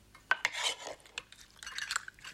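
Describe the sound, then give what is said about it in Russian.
A spoon scoops jam from a small jar onto porridge, giving a few soft scrapes and light clinks of cutlery on dishes, faint and separated by quiet gaps. “Та открывает небольшую баночку джема, накладывает его на кашу.”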